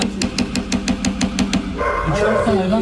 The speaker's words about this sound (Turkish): Mahalleli isyan ediyor çünkü komşularının beslediği köpeklerin sesinden uyku haram oldu.